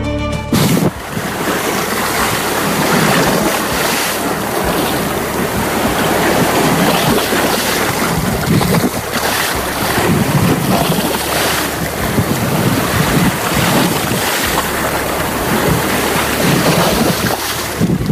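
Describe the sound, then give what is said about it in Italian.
Sea waves and wind on a remote black rock at Linosa make a steady, loud roar, with surging wash and rough wind buffeting throughout and no voices. “Quello che sentite è il silenzio della natura. Ogni tanto un uccellino, le onde del mare, l'erba che si fa accarezzare dal vento.”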